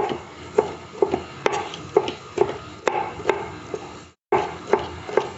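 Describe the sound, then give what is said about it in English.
A knife chops peppers in a steady run of many crisp, evenly spaced strikes, broken by one brief silent pause before the chopping resumes. “So we're going to add the onions into the oil. We're just going to chop up the peppers.”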